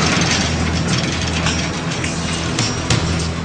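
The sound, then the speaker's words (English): An armored military vehicle heading toward a front line, giving a steady, loud engine rumble with a low drone beneath continuous metallic rattling and clanking. “we're heading up to the front line. We have to be in this armored vehicle”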